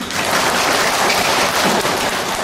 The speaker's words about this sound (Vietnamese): À, các vị vỗ tay có nghĩa là hiểu, thấy chưa nào?